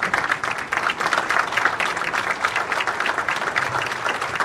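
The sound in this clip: An audience applauds to welcome Governor Terry Branstad at an agriculture and pork industry gathering, with dense, steady clapping that holds at an even level throughout and no voices over it.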